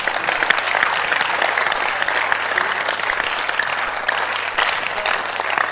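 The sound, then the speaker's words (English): Sustained clapping rises from an audience at a Christian gathering as people applaud for Jesus. The clapping is dense, even and loud, with no break across the whole stretch. “those of us who have sought the kingdom, clap for Jesus.”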